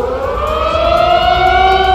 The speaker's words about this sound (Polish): Punktualnie w południe w całej stolicy na minutę uruchomiono syreny alarmowe.